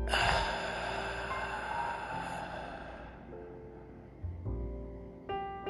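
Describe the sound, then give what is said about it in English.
A deep breath is drawn in and let out, a long, soft, airy rush of breathing that lasts about three seconds and fades into quieter background. “let's take a deep breath in, and let it out.”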